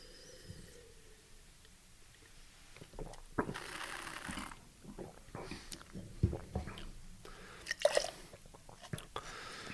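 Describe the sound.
A single wet spit as a taster expels a sampled drink during a tasting, a short squishy burst amid faint clicks and a quiet background.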